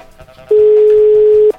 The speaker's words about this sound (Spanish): Ya está enlazada la llamada.